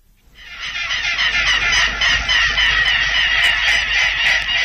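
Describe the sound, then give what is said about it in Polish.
Birds call in a dense, harsh chorus of honking cries. They are a family of adults and young hatched in reeds by a pond. The sound swells from quiet to loud within the first second and stays busy and steady. “czy ptaki pokazują swój charakterek, to próbowała odkryć Agnieszka Pospiszyl.”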